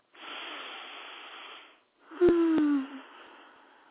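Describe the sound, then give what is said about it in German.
Two deep breaths, each a long airy hiss of about two seconds, separated by a short pause; the second is louder and briefly carries a low voiced tone. “Deshalb bitte ich dich jetzt, nimm ein paar tiefe Atemzüge.”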